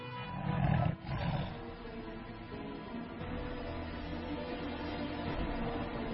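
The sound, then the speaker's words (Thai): A tiger and a lion roaring in a forest: deep, rumbling roars that are loudest in the first second and a half, dip briefly, then carry on as a steady low roar with no voices. “ทั้งเสือโคร่งและราชสีห์ต่างแผดเสียงเถียงกันลั่นป่า”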